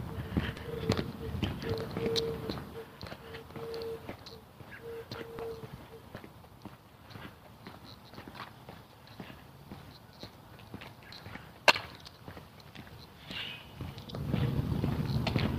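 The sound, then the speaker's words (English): Footsteps of a person walking outdoors on a chilly day: many soft, regular steps over faint background noise, with one sharper knock near the end. “it was quite chilly when I started walking, but of course now I've been walking for a mile and a bit”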